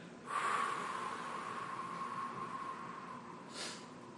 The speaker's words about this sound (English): Breathe in through your nose and blow out Lifnei Hashem.